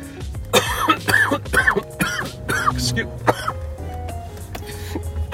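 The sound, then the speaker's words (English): Coughing from a person left hoarse by cannabis smoke: a long run of many harsh, rasping coughs and throat-clearing bursts in an uneven rhythm, fairly loud, easing toward the end. “excuse me. Oh, all the coughing.”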